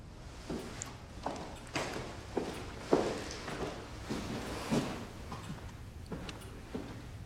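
Quiet footsteps of a woman crossing a room in a house toward a window, a series of soft, evenly spaced impacts in a steady walking rhythm, faint throughout.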